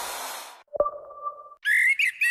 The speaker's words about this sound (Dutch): Word jij ook zo blij van de eerste zingende merel?